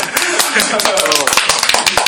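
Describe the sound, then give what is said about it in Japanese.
Brisk hand clapping from a few people, a run of quick sharp claps in fairly loud bursts, with voices talking over it. “あ、なんかイメージ的に拍手いらないんだけど。”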